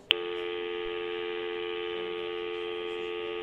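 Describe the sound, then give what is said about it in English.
A phone call being placed by voice command: a single steady electronic tone begins abruptly and holds evenly throughout over a faint low hum. “Siri, call lying shitbag executive! Calling lying shitbag executive.”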